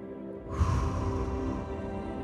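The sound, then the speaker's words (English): A slow, deep exhale during a guided relaxation breathing exercise. A soft, steady breathy rush begins after half a second and continues evenly to the end over a low, sustained tonal hum. “As we begin, I invite you to take a deep breath with me. Together, let's inhale. Hold it. Now exhale.”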